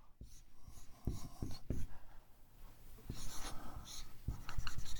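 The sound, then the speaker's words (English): Erasing and writing on a board during a lecture: faint, scratchy rubbing and stroking sounds in irregular bursts that swell and fade. “Let me erase all this. I'm going to illustrate it this way.”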